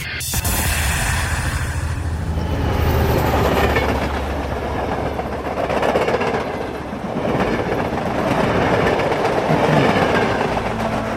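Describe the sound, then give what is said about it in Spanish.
A train passes overhead in New York with a loud, continuous rumbling roar and rhythmic rail clatter that swells and eases in waves across the whole stretch. “primero escuchábamos un tren pasar sobre nuestras cabezas.”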